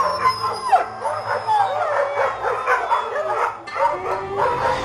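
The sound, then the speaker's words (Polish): Several dogs at a colony howl at night, joined by village dogs, in overlapping wavering howls with some whimpering yips, a continuous mournful chorus at moderate loudness. “Wycie psów niosło się od kolonii. Psy ze wsi zaraz się przyłączyły”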